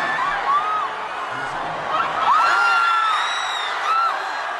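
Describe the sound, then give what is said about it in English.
A stadium crowd cheers as a cat lands safely, a broad, moderately loud roar of whoops and high, wavering shouts that swells in the middle and again toward the end. “Right there is everybody cheering, not because there was a touchdown. But the cat touched down safely.”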